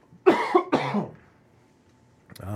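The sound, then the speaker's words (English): A burp close to the microphone: a couple of low, voiced, croaking bursts, then a brief quiet before a voice begins to speak. “And excuse me, I don't want to burp into the mic.”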